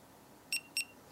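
Two short, high electronic beeps in quick succession as a small battery-powered device is switched off. Both tones are clear and steady, with quiet background between them.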